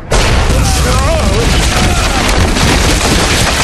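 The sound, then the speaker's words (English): A rock ceiling caves in, a loud, dense roar of collapsing stone and crashing debris that starts abruptly and stays continuous and heavy throughout. “A blast of rock dust swept over Ryan as the ceiling caved in.”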